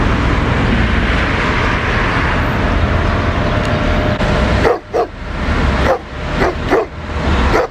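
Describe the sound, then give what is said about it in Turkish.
Stray street dogs bark in a parking lot in Istanbul. After several seconds of loud, steady rushing background noise, a few sharp barks break through in quick succession over the same din. “Sabah işe gitmek için evden çıkan bir kişi otoparkta başıboş sokak köpekleriyle karşılaştı.”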